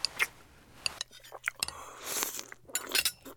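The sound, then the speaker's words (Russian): Faint chewing and light clinks of cutlery as borscht is eaten, irregular small sounds with quiet voices in between. “Ешь, ешь. Знатный борщ.”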